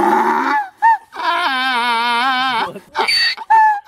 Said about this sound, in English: So we all know that donkeys go, Eeyore, Eeyore. How does a donkey sound? It sounds like this.